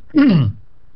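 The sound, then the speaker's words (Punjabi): A single short, voiced throat-clearing cough, low-pitched and lasting about half a second, heard alone against a quiet background. “सो मैनू माफ करना, थोड़ी जी सेहत ढिली इस करके थोड़ी जी खांसी विच आ रही है।”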